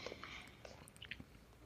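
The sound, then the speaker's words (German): Someone chews an old waffle that was left lying around, with soft, crunchy bites and wet mouth noises. The sound is faint and quick, with no talking. “Ja, ich habe so eine olle Waffel, die noch hier rumlag, die muss weg.”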